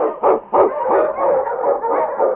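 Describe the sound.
Husky sled dogs bark on a snowy Yukon trail: two sharp barks open a loud run of continuous, overlapping yelps and barking that carries on to the end.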